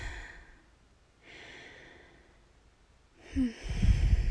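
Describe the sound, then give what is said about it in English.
Slow, deep breathing close up: a long soft breath, a pause, then another louder breath that ends in a rough, rustling burst. “And I breathe deeply.”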